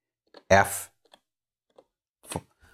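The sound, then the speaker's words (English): A few sharp, sparse clicks of buttons being pressed on a Yamaha Motif keyboard synthesizer, with quiet gaps between presses. “I do need to use the buttons on the Motif keyboard to switch major modes. So if I go to performance mode now, all of the functionality is the same.”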